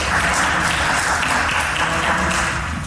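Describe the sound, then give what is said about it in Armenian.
Applause fills a parliament chamber after lawmakers elect a judge: a loud, continuous patter of many hands with a low murmur beneath, holding steady throughout. “Դատելով Արմեն Դանելյանի դեմքի արտահայտությունից ընտրությունն ու ծափահարությունները նրան այնքան էլ չոգևորեցին։”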